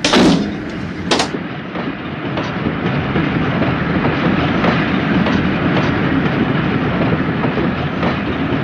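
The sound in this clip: A passenger train departs from a station with a steady, loud rumble of rolling wagons and a faint rhythmic clatter. Two sharp bangs come near the start, then the noise holds even to the end.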